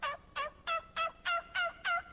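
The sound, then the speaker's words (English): A hunter imitates a hen turkey with seven evenly spaced, high, nasal yelps that are fairly faint and come with no talk. “And usually I'm trying to depict as if I was a hen, and I make my calls, and I say,”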